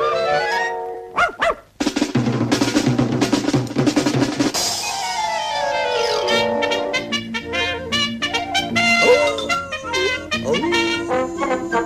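A mongrel dog barks repeatedly in sharp bursts, mixed with high, whining whimpers. The sounds are loud and frequent throughout, with short pauses between the barks.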